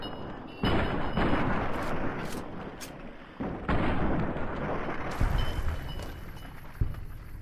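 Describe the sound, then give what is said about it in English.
Gunfire in the video game Fallout 4 against feral ghouls, with heavy booming blasts that begin abruptly and leave sustained rumbling noise, plus a few sharper cracks later on. “I shot one of them and both of them died.”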